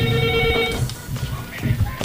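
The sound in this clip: Telephone ringing with an incoming call to a call-in automotive advice program, a steady tonal ring in the opening moments, with people talking over and after it.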